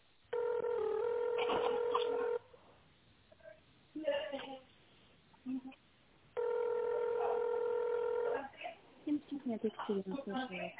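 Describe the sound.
Two sustained electronic telephone tones come through a narrow phone line during an automated menu asking the caller to press a number, with brief speech-like sounds between and after them.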